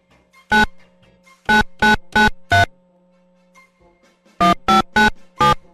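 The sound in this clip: A phone's ringing tone sounds while a call is placed, short bright tonal bursts in two groups, five quick rings, a pause, then four more, over faint background hum.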